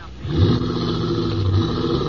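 A car engine drives off, a low rumbling hum that swells briefly near the start and then holds steady to the end, with no voices.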